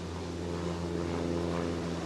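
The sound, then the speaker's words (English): A World War II B-17 bomber drones steadily in flight during a passenger ride, giving a constant low, layered engine hum with even tonal bands, fairly faint and unbroken, with no voices. “Peter Schull piloting a ride in the B-17 World War II bomber's sentimental journey at the Commemorative Air Force Museum in Mesa”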